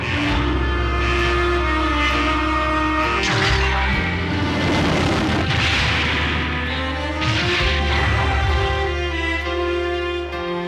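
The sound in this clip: Launch sequence sound effect for a giant robot: loud, continuous layered horn-like tones that step and shift in pitch over deep rumbling booms, sustained for about eleven seconds with no voices.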